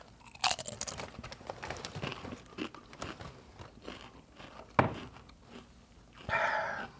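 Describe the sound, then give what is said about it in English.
Doritos tortilla chips being bitten and chewed: sharp, crisp crunches scattered among quieter, irregular chewing, with a few louder bites standing out. “Mmm. Best Doritos ever.”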